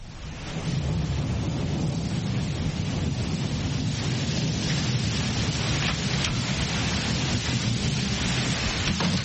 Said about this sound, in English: It's raining very hard. I know. It has been raining all morning.